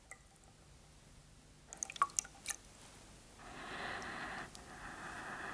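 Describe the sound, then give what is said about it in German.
Hands dip into a washbowl and are pressed wet against the face: a few soft splashes and drips, followed by a steady, wet rubbing hiss. “Ich tauche diese Hände in die Waschschüssel und drücke sie nass ans Gesicht.”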